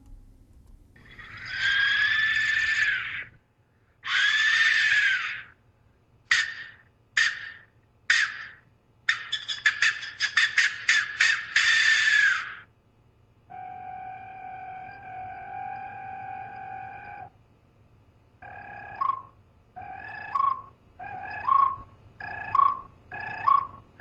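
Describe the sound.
A skull-shaped clay whistle sounded before human sacrifices gives shrill, harsh screeching blasts: two long cries, then rapid short bursts, a steadier multi-toned wail, and finally a run of short chirping shrieks.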